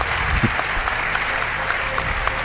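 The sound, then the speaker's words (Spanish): Sustained applause from a radio studio audience thanking a guest, a loud, continuous wash of many hands clapping at an even level from start to finish with no talk over it. “Un aplauso para Lorenzo Fernández”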